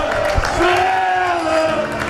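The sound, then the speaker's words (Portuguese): Crowd applause from football fans standing as their team leaves through the tunnel for the dressing rooms at half-time, with the match tied 1-1 between Estrela da Amadora and Sporting Braga. The clapping is steady and dense, with a tonal whistle-like line above it. “Estão de pé a aplaudir a saída da equipa para os balneários através do túnel de acesso igualdade em tempo de intervalo.”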